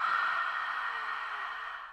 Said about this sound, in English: on an exhale, we're going to make a breath as if we're fogging a compact mirror